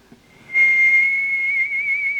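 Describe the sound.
A person whistles while walking along a street in Vienna, a single clear, high note that starts softly, swells and is held steadily for about two seconds with a slight wavering in pitch.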